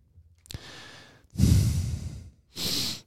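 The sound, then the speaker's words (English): Loud breathing straight into a microphone: three heavy, airy breaths with short gaps between them, the middle one longest and strongest. No one speaks. “Could you breathe any louder?”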